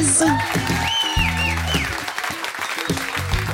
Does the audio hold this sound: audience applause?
yes